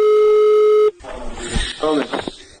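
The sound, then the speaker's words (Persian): A telephone tone on a recorded call to military commanders holds one steady pitch for under a second and cuts off abruptly. A voice then starts talking over the phone line. “روزنامه واشنگتن پست فایل صوتی تماس یکی از ماموران منتسب به موساد با فرماندهان نظامی ایران را منتشر کرد”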